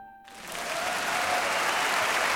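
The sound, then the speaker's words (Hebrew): Theatre audience applauds after a stage play of the biblical story of Ruth. The clapping begins after a brief quiet moment and quickly swells into dense, sustained applause from many hands. “כפיים לתיאטרון הבירה”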